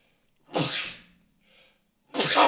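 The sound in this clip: Someone sneezes twice, each a sharp, breathy burst, with a short quiet pause between them.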